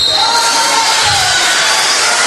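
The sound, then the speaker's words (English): A crowd at a basketball game stands and cheers after a foul call, a loud sustained roar of many voices with whoops, holding steady for the whole two seconds. “Yeah, the FM faithful standing up and cheering because they haven't got too many calls in their opinion.”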